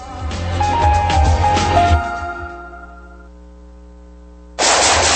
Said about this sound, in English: Whew, nice shooting.